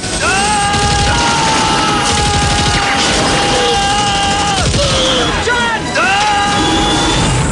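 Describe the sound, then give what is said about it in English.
Loud tank cannon fire and battle noise from a Rambo film scene, with Rambo firing on a helicopter gunship from inside a tank. The din is dense and continuous, with heavy booms and sustained tones running through it. “Rambo ducks as a shell ejects by his head inside the tank. Get out of there! Rambo fires on the gunship.”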